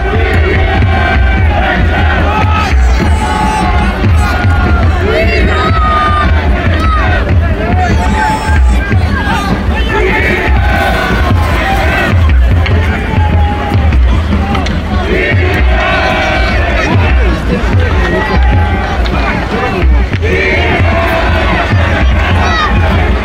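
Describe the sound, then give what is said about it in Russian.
Football stadium crowd singing in the stands, with adult and children's voices mixed: a loud, unbroken mass of voices with sustained sung tones and scattered shouts that holds at a steady level throughout. “Давайте теперь перенесемся в атмосферу стадиона и послушаем, как поют трибуны.”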